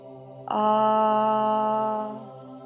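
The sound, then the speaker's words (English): A single chanted "ah" vowel, voiced loud and strong in a guided chanting exercise, begins abruptly and is held at a steady pitch for about a second and a half before fading out. “The first sound at this low navel point is ah, and it sounds like this.”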